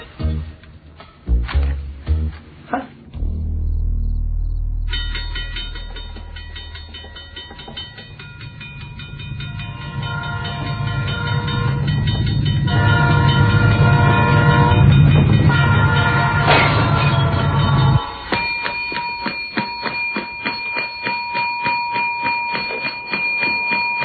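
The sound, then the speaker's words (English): A freight train passing at 5 a.m.: a few sharp knocks open, then a long sustained horn blast rides over a swelling rumble before the rhythmic clickety-clack of wheels takes over as the cars roll by. “Yesterday you told me that freight train hardly ever comes through here at 5 a.m. in the morning.”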